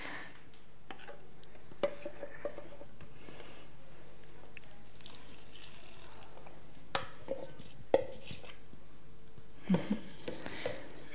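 Dough mixed with a pinch of salt is kneaded by hand, giving soft, quiet squishing and pressing noises. A few sharper clicks and slaps break through an otherwise steady, low rustle.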